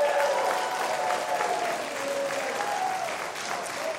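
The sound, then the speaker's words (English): Loud, sustained audience applause for a music act, a dense and even wash of clapping that holds steady for the whole stretch with no break or talk. “How about a big hand for Trey Corley and the Music City Connection?”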